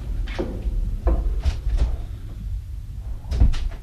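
A door being opened, heard as a few low clunks and knocks spread across the moment, with a heavier thud near the end and quiet rattles between.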